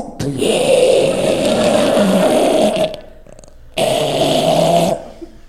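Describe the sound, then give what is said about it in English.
A voice imitates a sleeping man's snoring with long, loud, rasping growls of breath. There are two drawn-out snores separated by a short quiet gap. “And people knew he was asleep because his breathing changed. So normally he breathed like this. And then when he would fall asleep, it turned into this.”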